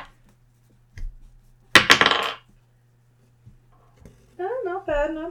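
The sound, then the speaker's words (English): Dice rattle and tumble across a surface during a tabletop role-playing game in one short clattering burst, with a few light taps around it, and a voice speaks briefly afterward. “I'm gonna use my new dice.”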